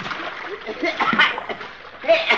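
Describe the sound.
Water splashes as a person falls in, a rough, churning burst of irregular splashes that rises and dips across the moment, with a voice mixed into the noise.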